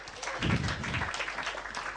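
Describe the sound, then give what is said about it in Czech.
An audience applauds as a guest is invited up on stage at a live event, with a moderate, steady spatter of clapping and a few louder claps standing out. “Cítil jsi ten potlesk?”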